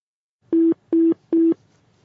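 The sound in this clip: Telephone busy signal after a caller has hung up: three identical, evenly spaced, low steady beeps, each clean and equally loud, heard alone.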